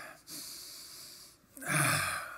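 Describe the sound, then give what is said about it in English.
Deep breathing during a guided prayer session, a sustained airy hiss that dips into a short pause before a louder, fuller breath rushes in and holds to the end. “Breathe in deeply.”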